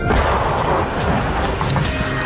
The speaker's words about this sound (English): More incoming gunfire. Some Argentine batteries around Stanley.